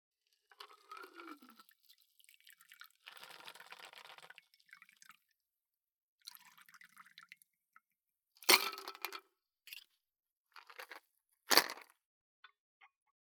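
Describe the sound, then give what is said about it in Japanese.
Liquid is poured into a glass while a drink is mixed. A faint, patchy trickle is broken by a few sharp clinks and cracks, with quiet gaps in between. “グラスに注ぐときこぼしちゃうかもしれないから。”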